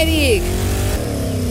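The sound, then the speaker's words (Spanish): Ford Maverick engine revving in lane one of a racetrack, a brief, loud droning roar with a falling tone at the start, under talk. “Tenemos el autódromo con los carriles número 1 y carril número 2. Y el carril número 1 en esta mañana, 8.55. Ahí está. ¿Qué? ¿Qué nomás? Es un Maverick, compadre.”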